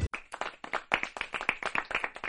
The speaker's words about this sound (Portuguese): Maurício sempre arrancando aplausos da plateia.